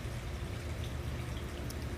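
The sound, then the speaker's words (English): Water from a fountain flows into a pool outdoors in warm sunshine, a faint, steady, even splashing rush with no breaks. “the water fountain flowing into the pool. Do you like the sound of running water? It's so relaxing to me.”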